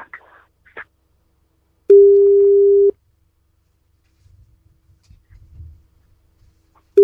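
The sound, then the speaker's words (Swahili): A telephone ringback tone sounds while a call waits to be answered: one steady, mid-pitched tone lasts about a second, followed by a long near-silent gap with faint rustling, and the next ring starts just as the sound ends. “Haya, wacha tumpigie simu.”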